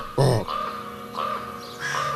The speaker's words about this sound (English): a raven's above their head and it gives that incredible deep, I can't even do it,